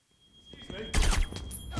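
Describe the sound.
Gunfire rings out in a Wonder Woman film hostage scene: after a low building rumble, a loud burst of sharp, cracking shots hits, followed by a few scattered impacts under a thin whine.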